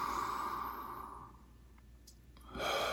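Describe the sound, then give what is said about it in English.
Deep cleansing breaths in a guided meditation: a long, soft, breathy exhale, then a quiet pause with a few small clicks, then another breath begins. The breathing is faint and no one talks. “I like to do a couple deep cleansers after that.”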